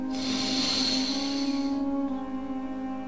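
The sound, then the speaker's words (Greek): A deep inhalation during a breathing exercise: a soft, airy hiss lasting about two seconds that then fades, heard over a steady, sustained low tone. “Πάμε λοιπόν, εισπνοούλες. Και εισπνοή βαθιά.”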